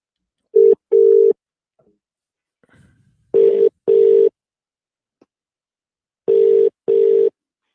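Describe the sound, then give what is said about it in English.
Telephone line tone as a call is placed to a caller: three pairs of steady, loud buzzing beeps separated by silent gaps, with faint clicks between them. “And in the meantime, I will dial up our next caller. Let's have a look at the list. Here we go. Let's hit the button.”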